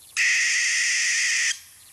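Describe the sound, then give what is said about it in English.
An American barn owl's call: one loud, harsh, hissing screech held steadily for over a second, then cut off, with nothing else around it. “Here they are again. the American barn owl,”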